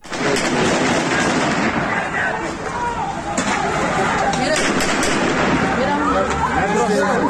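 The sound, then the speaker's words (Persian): Gunfire during heavy clashes in a border city in Iran's West Azerbaijan province: a few sharp cracks that cut through constant loud, dense noise with voices throughout. “شهر اشنویه از شهرهای مرزی استان آذربایجان غربی ویدیوهای منتشر شده از شدت درگیری‌های سنگین حاکی هست که در اون صدای تیراندازی به وضوح شنیده میشه. الان یکی از اونها رو میتونیم بشنویم.”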